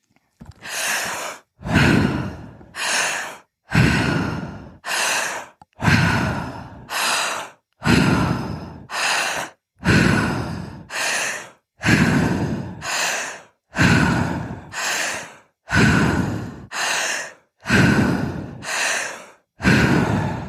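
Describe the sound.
Deep breaths with long exhales during a breathwork exercise. Many loud, airy inhales and exhales follow each other in a steady, even rhythm, with brief pauses between them and no talking.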